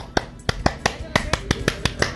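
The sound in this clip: Rhythmic hand claps of an Indonesian scout cheer (tepuk pramuka): many sharp, crisp claps in a steady, evenly spaced pattern, each standing out clearly above a quieter background.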